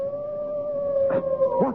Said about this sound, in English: That was the cry of a hound.